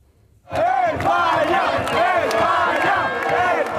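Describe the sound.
Football fans in Madrid celebrating a World Cup win over Belgium: a loud crowd cheers and chants in rising and falling shouts, starting abruptly after half a second and staying dense to the end.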